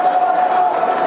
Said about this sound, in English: That was the roar of the crowd that he heard.